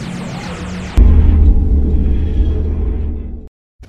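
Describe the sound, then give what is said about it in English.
The TARDIS, a blue 1960s London police box, materialises on a street corner with a groaning, wheezing noise: about a second of repeated falling sweeps, then a loud, steady low rumble and hum that cuts off abruptly. “The TARDIS materialized on a street corner, groaning and wheezing as it appeared, a blue 1960s London police box.”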